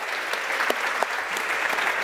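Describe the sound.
An audience applauding to welcome an author at a book reading: a dense, steady patter of many hands clapping that holds an even level throughout, with no talking over it.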